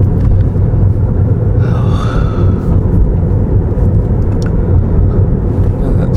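A car driving: a steady, loud, low road-and-engine rumble that continues unbroken throughout.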